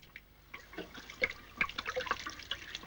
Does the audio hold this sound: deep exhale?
no

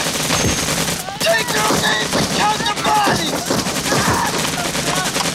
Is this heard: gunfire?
yes

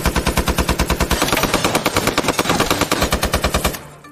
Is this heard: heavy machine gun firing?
yes

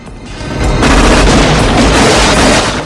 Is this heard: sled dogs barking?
no

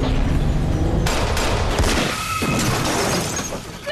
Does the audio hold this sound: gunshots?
yes

